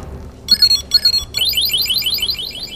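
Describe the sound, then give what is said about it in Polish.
An electronic overfill alarm, a gadget with wires that reach into a mug, beeps when the cup fills with hot water. It gives two short bursts of high trilling tones, then a rapid, continuous warbling beep. “taki gadżet, który ma druciki wchodzące do kubka i wydaje dźwięk wtedy, kiedy kubek jest już pełny. W ten sposób nie przeleję.”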